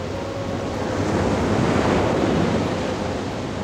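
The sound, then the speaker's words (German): Sea waves surge and break as surf on the shore at Isla Negra in the early morning, a steady rushing roar that swells toward the middle and eases slightly, with wind mixed in. “Schon vom frühen Morgen an steigt das Meer auf fantastische Weise.”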